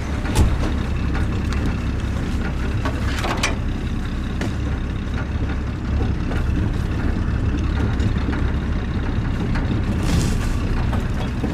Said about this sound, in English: We've just crossed the Gangan and we're getting into the second vehicle now, and we're going to try and see if we can find some buffalo.